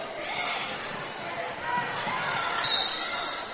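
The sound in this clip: A basketball is dribbled on the gym floor during a girls' high school game between Maplewood and Valor Collegiate Prep. Soft, repeated bounces sit beneath a steadily talking voice.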